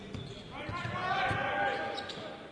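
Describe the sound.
A basketball is dribbled on the court during a game, with low thuds of the ball under a steady wash of crowd noise throughout.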